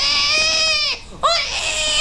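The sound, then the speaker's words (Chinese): A hungry baby cries loudly in a high, strained wail, breaks off briefly for breath, then bursts back into crying. “孩子饿了。啊，不哭！”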